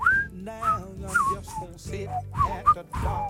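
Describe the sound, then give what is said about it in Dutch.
A person whistles a soul-song melody, with clear tonal notes that slide and bend between pitches in a loose, phrased rhythm. The whistling is fairly soft, with short breaths between phrases and no talking. “Jij fluit dat ook mooi.”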